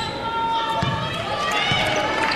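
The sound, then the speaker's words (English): A basketball is dribbled on a gymnasium court during a game, with a couple of dull, evenly spaced bounces heard over steady background noise. “Stops top of the key now. Still dribbling in the paint. Picks it up.”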